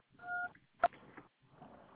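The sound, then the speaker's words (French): A faint, short telephone keypad tone from a pressed phone key, followed by a soft click and low, quiet noise. “Donc, je vais vous inviter à ne pas taper sur les touches du téléphone puisque j'ai un casque.”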